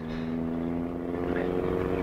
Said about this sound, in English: Say, there's a single light in the driving mirror. Motorbike? Yeah, I guess it is. Well, get your foot down, right? Well, I have, and he's coming up.